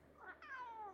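A hungry cat gives a faint cry: a short chirp, then a longer meow whose pitch falls away at the end.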